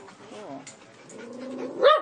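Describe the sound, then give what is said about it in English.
A dog protesting other dogs passing by lets out one loud, sharp bark near the end. Before it come softer vocal sounds and voices. “That's that'd be Austin, who's protesting the dogs going by.”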